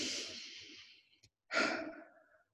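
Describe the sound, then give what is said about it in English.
Two slow, deep cleansing breaths, each a long soft airy rush that fades away, separated by a short quiet pause with a faint catch of breath between them. “take a couple of deep breaths in and out, like a cleansing breath.”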